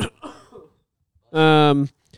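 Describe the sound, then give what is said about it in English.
A single voiced, throaty cough lasting about half a second. It follows a brief bit of speech and a short silence. “Was that a sneeze or a cough? It was a cough, but it was also because I knew it was my turn to talk.”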